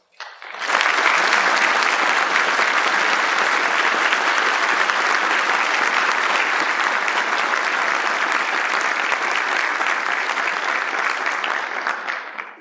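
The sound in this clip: Warm applause from a church audience welcoming guests: a dense, steady clapping that swells in quickly and holds at an even level for about eleven seconds before tapering off at the end.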